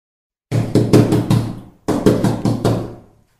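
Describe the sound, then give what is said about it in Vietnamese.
Urgent pounding on a room door comes as two rapid bursts of five heavy knocks each, separated by a brief pause. The knocks are loud, with no voices. “Mắt điếc tai ngơ với tiếng đập cửa truyền đến gấp ngoài cửa phòng.”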